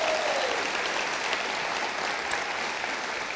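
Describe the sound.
An audience at a church gathering applauds for its pastors: dense, steady, loud clapping and crowd noise filling the whole stretch without letup, no voices standing out.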